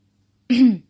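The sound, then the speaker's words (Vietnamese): A woman gives a single short cough, a brief throat-clearing sound that lasts well under half a second, heard alone in silence. “Cho nên nàng ho một tiếng.”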